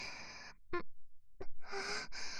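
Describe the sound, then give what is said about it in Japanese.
A woman breathes softly and audibly, with a few airy breaths and sigh-like exhalations separated by short gaps, the last one longer and fuller. “ほら、私の息遣いだって。”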